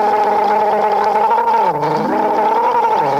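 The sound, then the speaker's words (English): A group gargling together on a morning radio show: a continuous, loud bubbling gargle with a voiced, wavering pitch that dips noticeably around the middle before steadying again. “Just jump right in over here and we'll have the good morning gargle now.”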